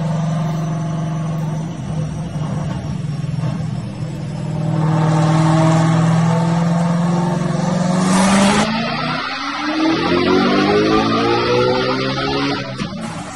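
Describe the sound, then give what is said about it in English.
A built car engine is revved hard to 8400 RPM. Its loud roar climbs to a sustained high-pitched scream, cuts off abruptly, then winds up again with a rising whine. “Give me an 8400 RPM hit. Listen to this bitch sing, son.”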